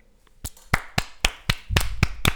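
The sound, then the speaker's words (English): Slow, deliberate hand claps, eight sharp strikes at a fairly even beat. A low murmur creeps in beneath the later claps. “round of applause, congratulations”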